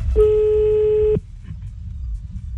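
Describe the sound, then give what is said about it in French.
Telephone line tone as a call is placed, a single steady mid-pitched beep lasting about a second, followed by near silence. “On appelle ton copain, il s'appelle Sacha”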